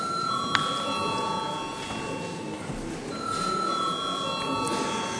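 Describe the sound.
An electric bell rings in a Latvian parliament chamber to call members to vote. It gives a steady, high, ringing tone that continues through the whole passage at an even loudness.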